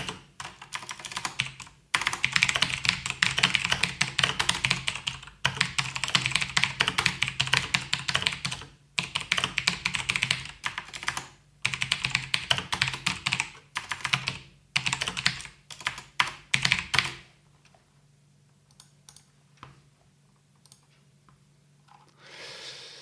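Typing on a computer keyboard comes in dense bursts of rapid key clicks broken by short pauses, then stops, leaving near quiet for the last few seconds.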